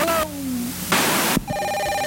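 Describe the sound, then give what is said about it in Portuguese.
A 1970s intercom rings with loud electronic tones, a hissing burst sitting between the tonal parts and no talk. “isso aí é um interfone nos anos 70”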